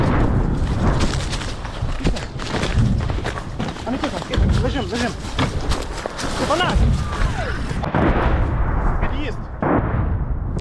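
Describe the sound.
Artillery shelling pounds an abandoned village's empty streets during a war, where volunteers search houses for trapped animals: many booms and blasts crowd together over a dense, constant roar, with people talking underneath.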